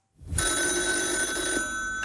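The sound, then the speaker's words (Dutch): A telephone bell rings in a single loud, sustained burst that starts abruptly after a brief silence and continues to the end, with no talk. “Dit is een fragmentje van G. Braadslee. Die wordt gebeld door Jacques Plafond.”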